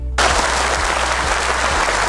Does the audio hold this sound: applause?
yes